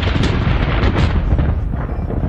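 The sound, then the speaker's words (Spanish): Thunder from a heavy storm rolls on as a loud, continuous, deep rumble with rough crackling texture. It runs the whole time without a clear break and with no voices. “el cielo que estaba claro se oscureció y comenzó una gran tormenta.”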